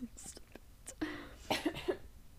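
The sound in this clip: Coughing after inhaling saliva: a few harsh, throaty bursts with short catches of breath between them, mixed with faint voiced sounds.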